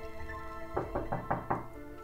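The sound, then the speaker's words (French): Knocking on a door: five quick, evenly spaced raps over a steady tonal musical background. “La licorne toqua la porte.”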